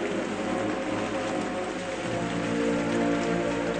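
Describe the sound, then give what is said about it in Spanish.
Steady rain pours down over a burial at a common grave, a dense, even hiss that never pauses, heard alone without voices. “todos corren a guarecerse de la lluvia”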